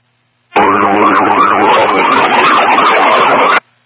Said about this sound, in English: very hard to hear you over the siren and the background noise